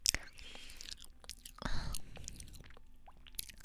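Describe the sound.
Soft, moist chewing of a soft, sticky homemade cake, with quiet mouth sounds and whispery breaths throughout.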